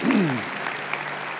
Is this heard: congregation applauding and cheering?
yes